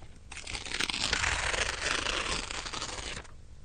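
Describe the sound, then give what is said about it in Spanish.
Paper being torn in one continuous, crackly rip that lasts about three seconds, fairly loud and without pause. “¿Cuántas cosas se pueden decir rompiendo un papel, no?”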